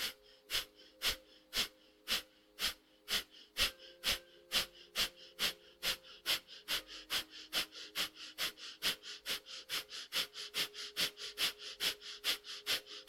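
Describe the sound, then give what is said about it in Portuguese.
A breathing exercise made of many rapid, forceful breaths in a steady, even rhythm, each one a short puff of air, with a faint sustained tone running underneath throughout. “Vamos fazer o segundo ciclo, inspira meio caminho e começa.”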